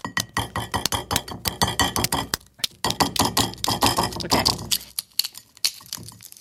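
The light gray-blue, dark-spotted shell of an egg is cracked and peeled in many sharp, rapid crackles and taps. They come in irregular bursts and thin out toward the end.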